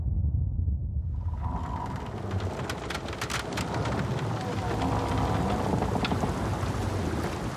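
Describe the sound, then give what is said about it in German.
A storm with rain and thunder: a deep rumble of thunder opens, then heavy rain rushes in and hisses steadily, with low rumbling continuing underneath. “Erst kommt der Sturm, dann die Wellen.”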